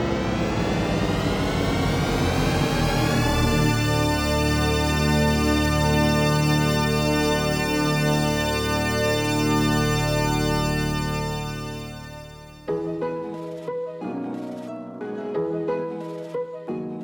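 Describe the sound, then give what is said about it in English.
THX Deep Note audio logo: a swarm of wandering, gliding tones converges into one huge sustained chord that holds steady and then fades. A separate choppy, pulsing passage follows it. “That somewhat ominous sound you just heard is the THX audio logo known as the Deep Note. At first, it seems to go everywhere and nowhere, and then comes together at the end for a larger-than-life resolution.”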